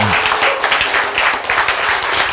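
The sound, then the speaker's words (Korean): An audience applauds during a church sermon, producing dense, continuous clapping that stays loud and steady from start to finish. “하나님은 전지 전능하십니다. 박수.”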